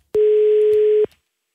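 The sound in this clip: A telephone ring tone on an outgoing call sounds once as a single steady, mid-pitched tone lasting about a second, alone with no voices.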